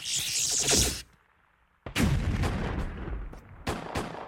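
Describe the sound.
Strafing gunfire sound effect: a loud burst of rapid shots, a brief silent gap, then a longer sustained stretch of heavy automatic fire that rumbles on with dense, overlapping cracks.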